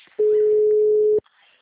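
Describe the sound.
A single ringback tone sounds on an outgoing telephone call: one steady, mid-pitched tone lasting about a second, loud and unbroken, then near silence.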